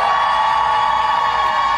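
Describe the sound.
Fans at a small private showcase for a pop group's first EP cheer, whoop and shout together in a brief, steady burst of crowd noise.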